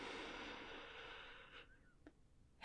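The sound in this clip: A long, breathy inhalation during a guided breathing meditation: a steady airy hiss for about a second and a half that fades away, then near quiet with a faint click and a soft burst at the very end.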